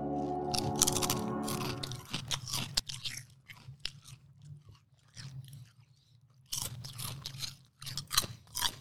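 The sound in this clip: Crunchy barbecue-flavoured potato chips being chewed: crisp, close crunching bites in irregular bursts, separated by quieter pauses of softer mastication, with no talk.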